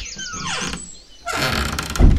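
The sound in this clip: A door creaks open with a long, high squeal that slides downward in pitch, then a rush of rustling noise and a low thud.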